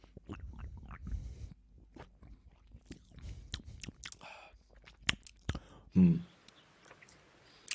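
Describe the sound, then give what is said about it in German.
A person chews and bites into pomegranate with soft, crisp crunches and clicks in an irregular series. The sounds are mostly faint, with one louder burst toward the end. “Oh ja, die Granate kenne ich ja schon, aber Granatapfel, aber die ist, glaube ich, auch richtig gut. Ja, probieren wir mal.”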